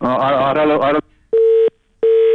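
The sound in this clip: Tone on a telephone line after a phone-in call is disconnected: a brief voice, then two steady, mid-pitched electronic beeps of equal length separated by silence.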